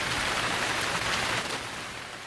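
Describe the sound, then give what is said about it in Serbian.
Heavy rain pouring, with wind through rustling leaves. A dense, steady downpour roar holds evenly, then eases slightly toward the end. “Šum lišća, huk vjetra, pljusak kiše.”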